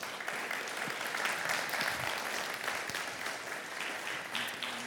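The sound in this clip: Audience applause welcoming a speaker invited up to share: a continuous wash of many hands clapping at an even, moderate loudness throughout.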